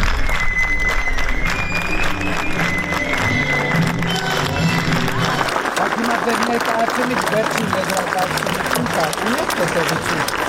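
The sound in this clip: Theatre audience in Armenia applauding and cheering enthusiastically after a performance, thick continuous clapping mixed with crowd voices and some tonal sounds over ten seconds.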